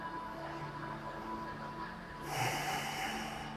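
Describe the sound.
Soft, airy breathing during a seated yoga twist, Matsyendrasana; the breath stays quiet at first, then a fuller exhale swells and hisses in the second half.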